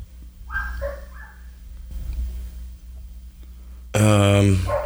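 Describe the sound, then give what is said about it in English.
Dog barking and yipping in short bursts, with a louder, sharper bark near the end over a low background rumble. “Man, I hope they put the damn dog away.”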